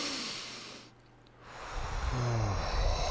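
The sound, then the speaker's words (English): Deep breaths taken together, a steady airy rush that drops almost silent for a moment and then swells again into a fuller, low, breathy wash, with no talk. “Muffins, we're going to take a moment actually to breathe. I'm going to count to one, two, three, and then we can breathe together if you'd like.”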